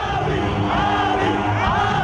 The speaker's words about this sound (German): Anfang 2018 rufen Anhänger auf den Straßen der Hauptstadt Addis Abeba immer wieder seinen Namen.